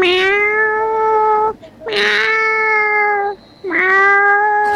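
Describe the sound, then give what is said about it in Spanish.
A person imitating a cat during an animal-imitation game, voicing three loud, drawn-out meows in a row with short pauses between them. “Bien acá, viene este gato.”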